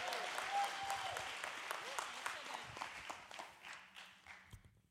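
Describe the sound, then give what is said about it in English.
An audience claps to welcome a kids' pastor onstage: dense, continuous applause that stays full, then thins into scattered claps toward the end. “Would you put your hands together and help me welcome our kids' pastor”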